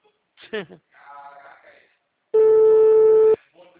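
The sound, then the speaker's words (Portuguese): Telephone ringback tone while a call is placed: a single steady, clear electronic tone lasting about a second, preceded and followed by brief talk. “Tá chamando.”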